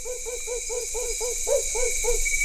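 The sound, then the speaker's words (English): The call of a Camiguin hawk owl, a Philippine island species, heard as a rapid, even series of many short, mellow hooting notes over a constant high background hiss. “This is the call of the Camiguin hawk owl, found only on one small island in the Philippines.”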